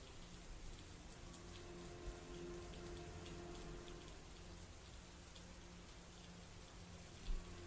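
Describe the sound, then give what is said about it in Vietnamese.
Rain falls steadily on muddy ground at night, a dense continuous hiss of drops with an even loudness throughout and one brief, sharper splash near the end. “trên bùn đất, nước mưa phả vào mặt đến không mở nổi”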